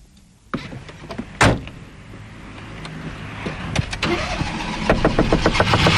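A car door thumps shut, then the engine turns over and runs with a steady rumble that builds louder toward the end, with a few clicks and knocks along the way.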